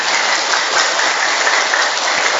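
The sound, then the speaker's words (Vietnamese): An audience claps at a gathering celebrating birthdays. The applause is dense and continuous, a steady, even wash of many hands with no voices over it. “Vỗ tay không dám vỗ tay to là sao?”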